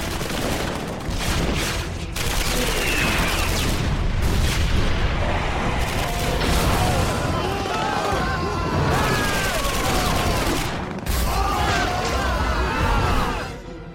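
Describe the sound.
Gunfire volley in an animated cartoon with Brazilian Portuguese dubbing: dense, continuous bursts of shots and booms that run almost without a break, with voices heard over the barrage.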